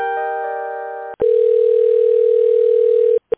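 Telephone line tones play while a call is being transferred to another department. A steady multi-tone hum lasts about a second, then after a brief break a single steady tone holds for two seconds and ends in a short click.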